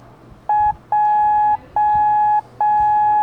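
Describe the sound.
Morse code for the letter J, a steady mid-pitched electronic tone keyed into four beeps: one short dit followed by three long dahs, evenly spaced and clear against a faint background.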